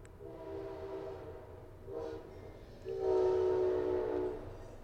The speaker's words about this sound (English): that's the southbound Amtrak. It's an engine with five cars.